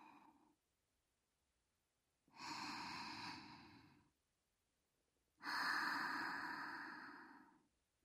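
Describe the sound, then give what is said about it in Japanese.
Two slow, deep breaths, each lasting roughly two seconds, with quiet pauses between them. The breathing is soft and airy, with no speech. “深呼吸です。”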